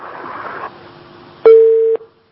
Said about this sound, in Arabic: قطع الاتصال.